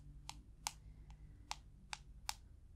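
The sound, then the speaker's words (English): Light tapping of fingers typing patient details into a phone during a mock doctor's exam: six crisp, evenly spaced clicks, each short and bright, with one at the middle softer than the rest, against a quiet background with no talk. “I'm just putting the info into my phone. I'm just typing it in there. It's quicker and easier than using my computer or writing it down.”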